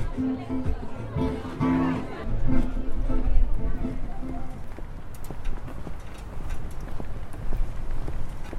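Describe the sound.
Footsteps walking toward the Darsena area of Ravenna, steady hard taps on pavement under people talking nearby.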